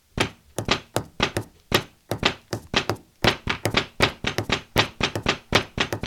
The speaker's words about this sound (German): Ihr seid beim Nerd Domino und hier wird live für euch getrommelt